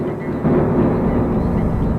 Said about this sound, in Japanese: その時、雷鳴が轟いた。